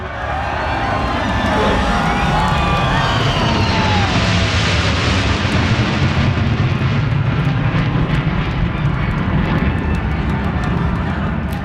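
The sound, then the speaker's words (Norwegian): Loud, continuous jet roar from B-2 stealth bombers flying in formation overhead at an outdoor event on The Mall. The broad engine rumble holds steady and powerful throughout, with no pauses. “Et B-2 stealth bombefly i formasjon flyr rett over hodene våre. Verdens dyreste bombefly drar opp stemningen på The Mall.”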